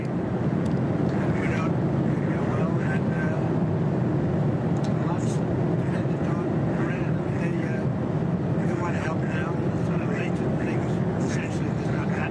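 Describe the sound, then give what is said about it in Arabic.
Airplane cabin noise during an in-flight call: a loud, steady, low roar of engines and air that fills the whole clip, with faint voices under it. “معذرة، الصوت مشوش جدا في الطائرة. الصوت مشوش جدا، لا يمكن الاستماع إلى شيء.”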